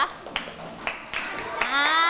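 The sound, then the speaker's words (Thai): Schoolchildren in a classroom clapping for themselves: a few scattered claps, then a child's voice rises at the end. “เชิญนั่งปรบมือให้ตัวเองก่อนนะคะ”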